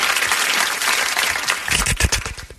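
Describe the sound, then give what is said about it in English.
People clapping in applause: a thick patter of many hands through the first part, thinning toward the end into a few louder, more separate claps. “Just clap for Tanner.”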